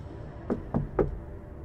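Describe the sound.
Knocking on metal: three separate knocks, evenly spaced and fairly soft, over a steady low background hum.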